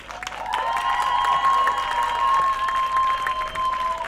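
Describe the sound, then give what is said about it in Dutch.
Warm applause from a crowd at a demonstration against racism and fascism: a steady, full clapping that builds in the first half second and holds loudly for about four seconds, with a sustained high tone running through it. “mag zij alsjeblieft een extra warm applaus voor haar geduld?”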